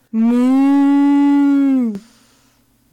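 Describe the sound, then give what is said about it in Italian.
A human voice imitates a cow mooing with one long, loud, steady low moo that sags slightly in pitch at the end. A sharp click and quiet follow. “La mucca. Paloma. Dai, ormai la mucca si fa.”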